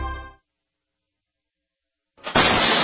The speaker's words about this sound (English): That's the sound of your door being kicked in by an intruder with a single kick.